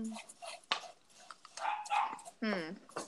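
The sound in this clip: A dog barking, several sharp, irregular barks and yelps mixed with a person talking.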